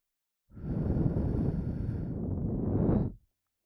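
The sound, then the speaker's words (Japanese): Breath blown into both ears at once to clear away fine earwax. A single steady, soft, breathy rush lasts about three seconds, heard alone, and stops abruptly. “左右同時に息を吹きかけて細かい耳垢を飛ばすわね。”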